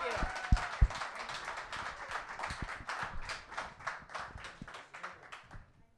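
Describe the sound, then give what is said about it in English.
A quiet round of applause from an audience, many rapid claps blending into a continuous patter that thins out toward the end, with people talking over it. “Give him a round of applause. Ron Belushi.”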